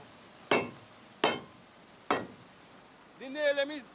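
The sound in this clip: A crowbar used as a hammer strikes loose nails into a nailed railway track three times, each a sharp metallic clank with a brief ringing decay and evenly spaced pauses between, followed by a voice starting to speak.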